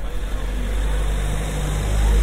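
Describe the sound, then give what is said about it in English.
A car drives along a cobbled street. Its engine makes a low, steady rumble that grows slightly louder toward the end. “There's a car driving past.”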